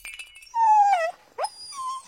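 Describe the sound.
Puppy whimpering and whining while playing and chasing its tail, giving two high, drawn-out cries with a falling pitch, separated by a short pause. A thin, quieter whine comes before them.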